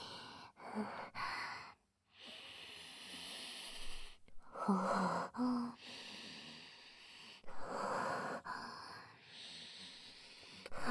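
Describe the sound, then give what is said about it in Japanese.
Sniffing by a person smelling something held close to the nose, with several bursts of sharp nasal inhales and snorting breaths separated by short pauses, fairly quiet overall. “これ嗅いでもいいんですか？ じゃあお言葉に甘えて失礼しまーす。”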